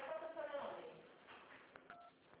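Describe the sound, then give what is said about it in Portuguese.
A mobile phone keypad tone comes through a call line: one short, steady two-note beep near the end, after stretches of muffled talk. “Eu acho que você está apertando os botões do seu celular, eu não estou conseguindo te ouvir.”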